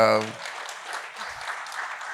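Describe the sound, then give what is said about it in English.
Audience applause at a panel Q&A session: dense, steady clapping that swells after a brief spoken word and carries on to the end. “Okay, clap. I love the clap. I love it.”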